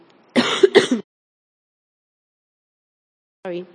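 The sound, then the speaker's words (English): Someone clears their throat in a short, two-part raspy burst, followed by silence and then a brief voiced sound a few seconds later. “No, I don't need water. I just had a frog in my throat.”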